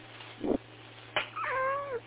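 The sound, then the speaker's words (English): A cat meows. A brief, faint chirp is followed by a drawn-out, clear meow whose pitch dips toward its end. “I just randomly had a cat climb into my face. Cat, do you have any words to say?”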